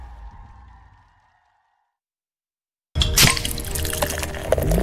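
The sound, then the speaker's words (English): Legend Extra Stout beer pours in a loud, steady gush of bubbling liquid. It starts abruptly after a faint fading tone and a short silence, then keeps flowing without a break to the end. “That's the sound of a stout that flows with your personality.”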